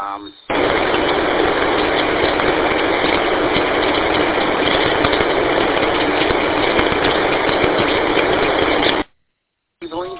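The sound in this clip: A car engine and road noise while driving form a steady, loud, unbroken drone that holds for about eight seconds and then cuts off abruptly.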